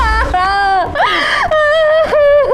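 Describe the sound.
A woman cries during a domestic argument: loud, drawn-out wailing sobs whose pitch swoops up and down, broken by short catches of breath, with no words.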